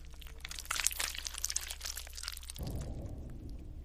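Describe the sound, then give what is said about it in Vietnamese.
Crunching, cracking of neck bones breaking, a horror-story sound effect: a dense, faint burst of crackles that gives way to a low rumble near the end. “Thậm chí chị Thương còn nghe rõ là cái tiếng xương cổ của nó gãy răng rắc.”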